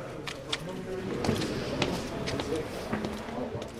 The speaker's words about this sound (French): Alors là, on monte au dernier étage de la tour. Les escaliers se resserrent. On était tout à l'heure encore collés aux gaines, mais là, il n'y a plus d'ascenseur. Ce dernier étage est accessible uniquement à pied